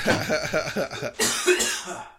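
Sputtering coughs from a person who choked on a drink, a rapid run of rough bursts that breaks off briefly, then continues in a longer raspy stretch that fades, fairly loud and heard alone.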